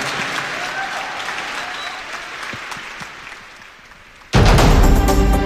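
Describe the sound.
Audience applause as a public event ends with thanks to the crowd: dense, steady clapping that slowly fades over about four seconds before a much louder sound abruptly cuts in.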